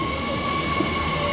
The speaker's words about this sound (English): That is the sound of the red antique-style commuter train pulling into the station where we boarded,